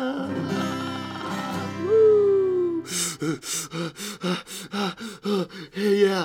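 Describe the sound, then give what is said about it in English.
Deep, rhythmic breaths in a breathing exercise, paced like galloping horses, come as many short, even, loud bursts after a few seconds of sustained, music-like tones. “Yes, we are taking those deep horsey breaths”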